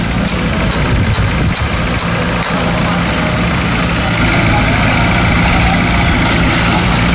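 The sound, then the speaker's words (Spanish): Construction works at a harbour give off a loud, continuous engine rumble like heavy machinery idling, a dense low drone with a few faint knocks early on. “Sonaban este sonido de las obras, porque se están construyendo allí también nuevos espacios para poder acoger a algunos más.”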